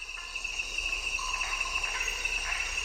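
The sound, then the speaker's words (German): A tropical chorus of frogs, insects and reptiles recorded from a thicket. A dense, steady high-pitched buzzing trill dominates throughout, with faint scattered calls beneath it. “da hockte ich nun im Dickicht und zeichnete versonnen den tropischen Chor der Frösche, Insekten und Reptilien auf.”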